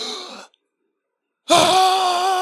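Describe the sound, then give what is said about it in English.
A voice imitates a football stadium crowd gasping: a first breathy voiced sound, about a second of silence, then a longer, loud drawn-out gasp with strong tonal harmonics that holds to the end. “That motherfucking Buccaneers crowd was like,”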